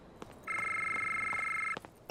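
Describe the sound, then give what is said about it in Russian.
A phone rings with an incoming call: one loud, sustained warbling ringtone burst lasting just over a second, with quiet moments before and after. “Входящий вызов.”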